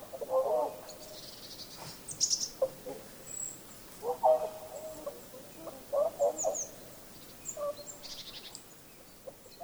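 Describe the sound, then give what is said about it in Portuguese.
Swallow chicks calling from under a roof before daybreak, giving several short bursts of high chirping separated by quiet gaps over a faint, steady background hum. “Os filhotinhos de andorinha acordaram. Já era a hora do café da manhã deles”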